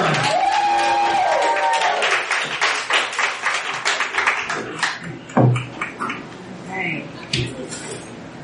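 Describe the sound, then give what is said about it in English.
An audience at a spoken-word poetry night claps and cheers for a performer coming to the stage, with loud whoops at first, then scattered clapping and cries mixed with a person talking. “Make some noise for Kay Renee, ladies and gentlemen. Louder!”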